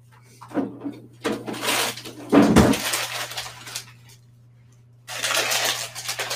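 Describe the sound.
A pan clatters as it is set onto a stove in a home kitchen. A few bursts of rattling and scraping rise over a steady low electrical hum, with short quiet gaps between them.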